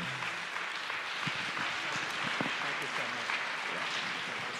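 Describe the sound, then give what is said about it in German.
Warm applause welcoming a pastor, a fairly faint, continuous patter of clapping with voices talking over it. “Und vielleicht können wir ihn einfach mit einem ganz herzlichen Applaus willkommen heißen und alles empfangen, was er für uns hat.”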